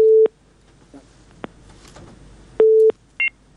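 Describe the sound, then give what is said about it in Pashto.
A telephone busy tone follows a call being cut off: two loud, steady, low-pitched beeps separated by a pause, with a few short clicks in between and a brief higher double beep at the end. “فکر کوم اړیکه پرې شو”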